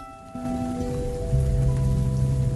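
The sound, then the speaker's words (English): Raindrops fall in daytime on leaves and flower heads, a soft continuous patter that thickens after the start and stays steady, with low hums beneath. “It's daytime and raindrops are falling on leaves and flower heads in slow motion.”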